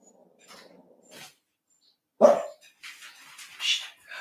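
A dog gives one loud, sharp bark in a quiet home, with faint softer whimpers before it and a few quieter yips and short noises trailing after.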